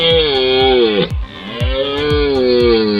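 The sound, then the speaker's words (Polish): A red deer stag roars during the autumn rut: loud, deep and strongly harmonic bellows with a falling pitch, broken by a short gap near the middle before the roaring resumes. “Tym pierwszym głosem, który słyszymy podczas rykowiska, to jest głos byka organisty, który rozpoczyna rykowisko.”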